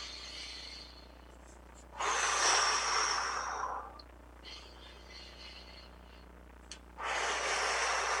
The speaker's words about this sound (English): So hands to heart center, inhale, exhale, inhale, exhale, one more time.